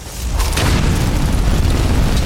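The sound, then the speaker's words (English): A roaring fire and flame spell blast in a fantasy wizard video game, heard as a continuous dense, noisy whoosh over a heavy low rumble. It stays steady and loud throughout, with no speech. “Let's go back to fire. Flames. We'll go back to flames.”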